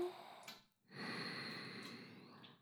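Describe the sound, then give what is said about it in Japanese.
Soft, deep breathing close to the listener: a short breath, a brief silence, then a long, steady, drawn-out exhale-like rush of air, faint and intimate. “深呼吸が気持ちいい、声と吐息が気持ちいい、ママのお口から漏れ出るすべてが気持ちいい、吸って”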